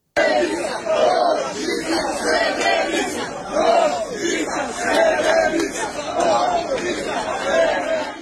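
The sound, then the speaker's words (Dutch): Crowd chanting slogans in the streets of Serbia, many voices repeating a short rhythmic chant again and again in loud, regular bursts. “Alma, ik wil eerst beginnen met wat geluid waar te horen is dat mensen scanderen op de straten in Servië.”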